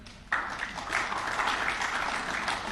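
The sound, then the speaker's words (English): Audience applause for a university, IIUM, breaks in abruptly after a brief quiet moment, then carries on as dense, even clapping from many hands. “a big applause for IIUM, my former university”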